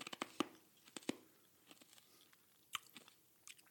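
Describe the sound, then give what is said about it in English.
Crunchy ASMR mouth sounds of biting and chewing: quiet, crisp snaps and crackles that come in scattered bursts, with several sharper bites standing out against a soft, hissy background. “ASMR. These are soothing sounds. You're so into ASMR right now, aren't you?”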